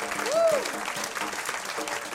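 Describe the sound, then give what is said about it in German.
Audience applause for a jazz festival, a steady wash of clapping with a short whistle-like tone near the start. “Einmal ein Applaus für das Jazzfest Ahrenshoop.”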